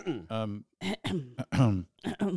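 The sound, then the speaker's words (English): Someone clears their throat in a series of short, voiced, throaty bursts with brief gaps between them, loud and close. “I'm just clearing my throat.”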